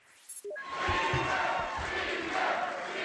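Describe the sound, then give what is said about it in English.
Crowd of Republicans chanting "speaker" at an election night celebration in the Capitol, a loud, dense roar of many voices with a rhythmic pulse of repeated chant syllables running throughout. “They're chanting speaker for the man poised to take over as the Republican Speaker of the House, John Boehner.”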